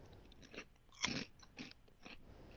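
Crunchy chewing of vanilla-flavored cereal, green and yellow O's, heard as a few faint crisp bites with one louder crunch near the middle, with no voices.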